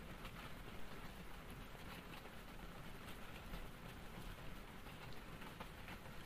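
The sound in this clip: Rain falling on a rainy night while driving, heard as a steady, dense hiss that stays faint and even throughout with no voices.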